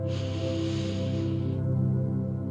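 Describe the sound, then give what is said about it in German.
A deep breath drawn in through the nose, a soft airy hiss lasting about a second and a half before it stops, over a sustained low musical drone. “Atme hier noch einmal tief durch die Nase in dieses Gefühl hinein.”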